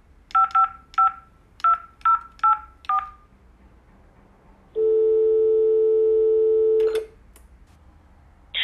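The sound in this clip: Touch-tone keypad beeps as a phone number is dialed: seven short tones in an uneven rhythm, then a long steady phone tone of about two seconds ending in a click, and another tone starting right at the end.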